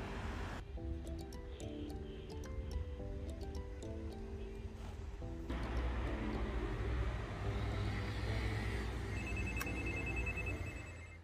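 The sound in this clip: A doorbell chime rings at a home in Lillestrøm, a run of bright, faint tones lasting several seconds, followed by a broader steady noise.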